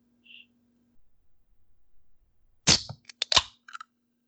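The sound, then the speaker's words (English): A can of black cherry White Claw hard seltzer cracks open with a sharp metallic pop, followed by short fizzing hiss bursts and a couple of light clicks in an otherwise quiet setting. “That's the white claw for the audio listeners. That's the black cherry 100 calorie white claw”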